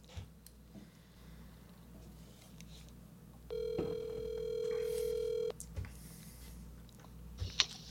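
An outgoing telephone call rings with one steady, buzzing ringback tone lasting about two seconds, standing out clearly above a faint, low background with a few soft clicks.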